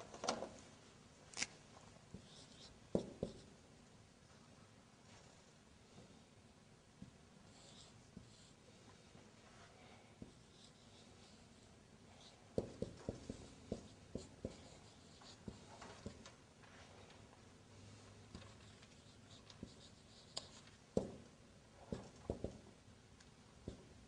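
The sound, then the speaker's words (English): Handwriting as an example is written out: faint, soft scratching strokes and light taps over a long stretch, with occasional sharper clicks and no talking. “I'll write down the example. That will make more sense,”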